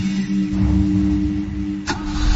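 A car engine runs as the driver sets off, giving a steady low hum with a brief, sharp burst of noise near the end and no voices.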